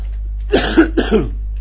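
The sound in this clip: Two short, harsh coughs from a person still getting over the flu, each a quick double burst, close together and loud against an otherwise quiet, steady background hum.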